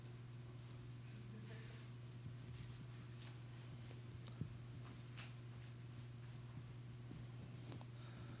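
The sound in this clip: Writing on a board during a lecture: quiet, scratchy strokes run almost continuously, with a few sharper taps, over a steady low hum and no speech.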